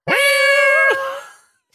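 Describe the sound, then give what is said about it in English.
A cat gives one loud, drawn-out meow with a clear harmonic tone. The pitch dips near the end before the call trails off more softly. “That's a cat.”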